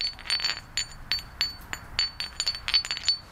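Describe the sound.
A flint stone struck repeatedly, producing many quick, glassy clinks with a silvery, high ringing tone in an uneven, tapping rhythm, faint overall and free of voices.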